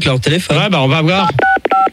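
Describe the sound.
Phone keypad tones play a tune as a few short, steady beeps, heard after a voice speaks French over the first ones.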